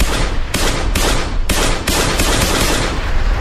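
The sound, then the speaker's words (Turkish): Gunshots fired by a man at a jewelry store on a street in Diyarbakır at night: several sharp, very loud reports in quick succession, blurring into a dense, continuous wall of harsh noise. “Bir kişi silahla cadde üzerindeki kuyumcunun önüne geldi. Bir anda kuyumcuya doğru ateş açtı.”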